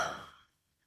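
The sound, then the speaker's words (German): A deep breath exhaled during a guided breathing exercise: a single soft breathy rush that starts fairly strong and fades away within half a second, leaving near silence. “Und noch einmal tief durch die Nase in den Bauch ein. Und wieder aus.”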